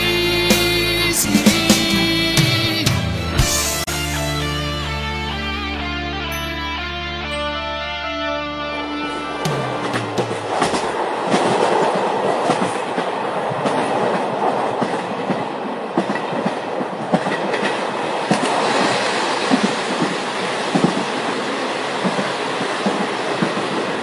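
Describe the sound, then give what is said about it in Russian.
A runaway diesel locomotive rumbles along the rails with loud, steady clickety-clack of wheels over track joints, entering after about ten seconds of music and continuing unbroken to the end. “На вас движется неуправляемый тепловоз. Повторяю, на вас движется неуправляемый тепловоз.”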